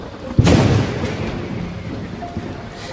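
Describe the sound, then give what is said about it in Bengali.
Thunder during a storm: a loud crack bursts out early, then a long low rumble fades slowly over steady rain. “মাঝে মাঝে বাজের বিকট শব্দ কানে আসছে তার সঙ্গে বিদ্যুতের ঝলকানি”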